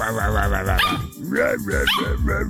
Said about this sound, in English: I play the sound of a dog barking on the radio.